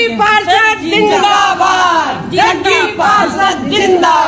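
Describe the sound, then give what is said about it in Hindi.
Women from Ward 55 chant political slogans for a ward councillor candidate, loud rhythmic shouts in unison repeated in a few bursts. “तो दोस्तों आपने सुना सुना सुना सुना ही होगा जग्गी पार्षद जिंदाबाद के नारे लगाए जा रहे थे महिलाओं द्वारा”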